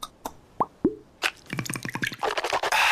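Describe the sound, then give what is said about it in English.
Liquid plops and drips as Listerine mouthwash is poured: a few sharp, separate plops open, then quicker bubbly clicks crowd together and give way to a steady, hissing slosh at the end. “You know what that is. That's the sound of wow with Listerine. Simply grab, twist, pour, and swish for 30 seconds twice a day to add the wow of Listerine”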